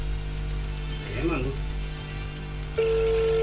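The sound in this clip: A telephone ringback tone sounds on an outgoing call. A steady, single-pitched tone begins near the end after brief talk, over a low hum.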